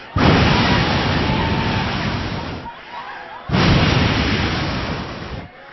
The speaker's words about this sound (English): Here comes the tornado.